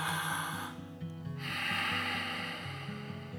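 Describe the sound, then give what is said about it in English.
Deep breathing in and out during a guided breathing exercise: a long airy breath, a brief lull, then another long breath, over soft low background music. “Let's breathe.”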